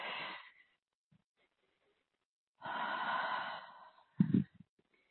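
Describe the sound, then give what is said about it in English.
A deep breath taken during a guided spiritual clearing session: a short breathy puff, then a longer drawn breath of about a second and a half, and a brief low puff at the end, all soft with quiet gaps between. “Deep breath, everyone.”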